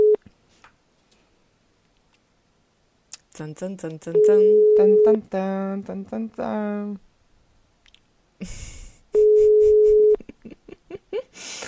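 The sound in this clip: A telephone rings during a live radio call to a randomly chosen number: two long, steady mid-pitched ringing tones about five seconds apart, with voices in between and after.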